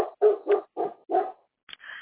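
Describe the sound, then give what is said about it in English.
Dogs barking in five short, gruff woofs at an even pace, followed after a brief pause by a higher, thin whine. “okay, sorry, these dogs right here, pass these by”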